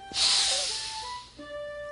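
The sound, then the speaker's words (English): A deep breath drawn in during Taekwondo breathing practice: one long, breathy rush of air lasting about a second. It swells loud, then tapers off, leaving faint steady tones underneath. “First, we practice our breathing. Deep breath in.”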